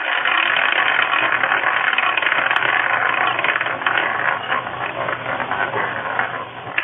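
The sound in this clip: A prize wheel spun to pick a player at random, giving off a dense, continuous ratcheting clatter that holds steady for several seconds and turns slightly uneven toward the end.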